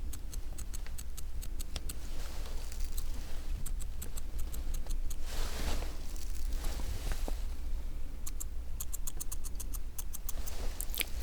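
Small scissors trim long eyebrow hairs during a brow grooming session, making many quick, crisp metallic snips in rapid bursts separated by brief pauses.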